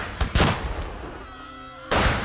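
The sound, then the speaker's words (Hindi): A heavy gunshot in a rebellion drama scene: a few sharp, loud blasts, a quieter tonal stretch between them, and a final burst near the end. “तभी अचानक एक भारी गोली चलने की आवाज आती है”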